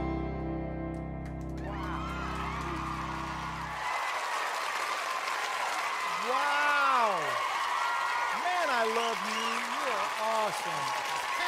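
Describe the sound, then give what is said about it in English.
An audience breaks into applause and cheering after a live music performance. A sustained musical tone gives way to dense clapping, topped with rising and falling whoops and shouts. “There's the cheering.”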